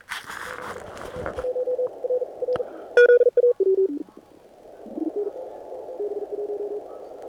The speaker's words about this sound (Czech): Tak tohle je ten falešný zázněj.